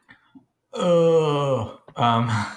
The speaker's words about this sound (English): I guess that groan is only because I am a little tired because I've had a kind of busy-ish morning